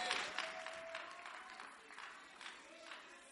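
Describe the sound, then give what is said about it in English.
Applause welcomes a speaker at a church service: fairly faint, steady clapping that runs through the whole clip, with a thin sustained tone beneath it. “Please put your hands together as we welcome Richard Menu to share his testimony with us.”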